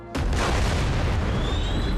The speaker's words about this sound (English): The shot destroys the plane.